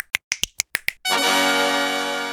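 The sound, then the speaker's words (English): Six crisp finger snaps in quick, even succession, each a sharp isolated click, followed at once by a loud, sustained, dense tonal wash that slowly fades. “Time for 10 new snaps.”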